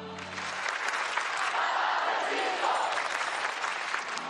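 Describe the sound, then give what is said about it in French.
A young crowd at World Youth Day in Portugal cheers and applauds Pope Francis during the Way of the Cross ceremony, a dense, continuous roar that swells after the opening moment and holds loud to the end. “le pape préside la cérémonie du chemin de croix, mise en scène par ces jeunes qui acclament avec ferveur François.”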